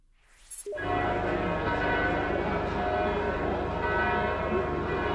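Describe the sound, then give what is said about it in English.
Church bells ring in Bethlehem for morning Mass. After a brief quiet start, a sudden loud clang opens a sustained, rich wash of overlapping tolls and long ringing overtones that stays loud to the end. “That's the sound of the bells of Bethlehem, where hundreds of worshipers, pilgrims, and tourists are in the traditional birthplace of Christ for morning Mass.”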